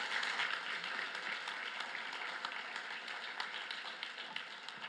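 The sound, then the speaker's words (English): Applause greets a woman after she finishes speaking at a worship gathering: a continuous dense patter of many hands clapping, fairly quiet and even from start to finish. “Let me just give her a hand.”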